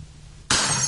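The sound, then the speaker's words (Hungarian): A drinking glass clinks and rattles as someone fiddles with it. A bright, glassy jangle breaks in abruptly halfway through after a quiet opening and carries on to the end. “Mi történik ott? Ha nem tud mozogni, ne babrálja a poharat!”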